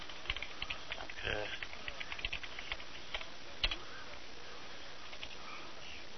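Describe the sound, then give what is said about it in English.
Typing on a laptop keyboard: many light, uneven keystrokes tapping slowly and irregularly, quiet over a soft steady hiss. “I have to type. I have to type slow. I'm not used to, like, typing on a laptop.”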